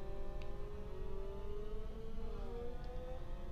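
Racing car engine at high speed in a video game gives a loud, continuous whining drone with layered tones, holding a nearly steady pitch throughout.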